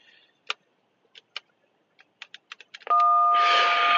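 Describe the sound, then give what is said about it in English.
An intercom buzzer sounds at a door after a scattered run of light clicks. The buzz then cuts in loud and steady, a harsh electric drone holding to the end. “buzzing through the door. Y'all hear me buzzing through the door.”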